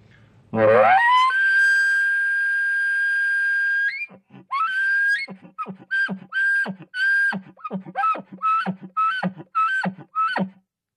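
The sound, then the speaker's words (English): An elk bugle blown on a single-reed game call: a loud, high whistling note that climbs and holds for a few seconds, then a rapid series of short, clipped grunting chuckles. “So here's a bugle with the single reed.”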